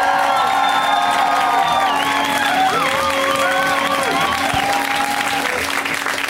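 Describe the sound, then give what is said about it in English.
Loud, steady audience applause and cheering welcome a comedian onto the stage at a UCB comedy show, with whoops and whistles rising above the clapping throughout about six seconds. “when it is somebody's first time on the show, we welcome them with very much exuberant applause. Correct? Yeah. Well, please, let's hear it nice and loud for Melanie Maras. Give it up for her.”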